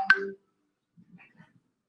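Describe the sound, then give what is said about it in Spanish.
A short electronic notification tone sounds from a phone as work messages arrive: one bright, brief chime at the start, then near silence. “perdón, es que me están llegando mensajes mensajes del trabajo aquí de la oficina.”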